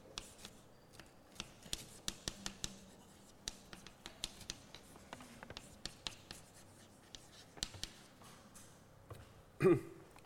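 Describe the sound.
Formulas being written out by hand: faint, scratchy strokes and many quick taps in an irregular rhythm, with a louder knock near the end.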